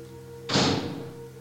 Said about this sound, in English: Okay, let's go through these double doors then. First and foremost, through the double doors.